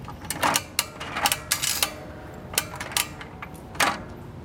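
Clicks and clunks come from the turned lever of a coin-operated capsule vending machine, one that takes a 50-cent coin. The faint, irregular series of sharp mechanical ratchets and knocks has quiet gaps between them.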